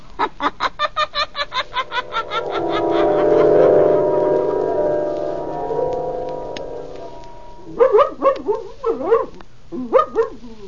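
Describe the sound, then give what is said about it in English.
A dog named Blackie barks in a rapid, even run of about a dozen short, sharp barks at the start while being put on a leash. A longer tonal sound and a few louder bursts follow. “Down, Blackie. Down, I say. Oh, if you keep squirming, I'll never get you on a leash.”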